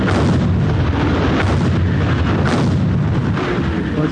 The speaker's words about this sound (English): the British and French began a massive week-long artillery bombardment of German frontline defences.